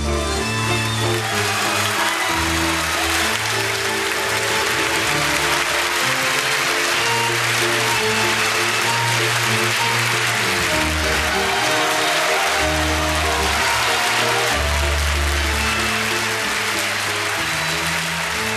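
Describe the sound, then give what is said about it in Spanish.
Audience applause at a night show of songs and poetry, a dense steady clapping wash that holds at full level throughout, with music tones sounding underneath. “Este aplauso es para ustedes. Es para vos.”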